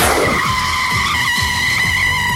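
Tire squeal from a car braking hard and skidding, used as a sound effect: a loud, continuous high screech holding steady for about two seconds, with no voices.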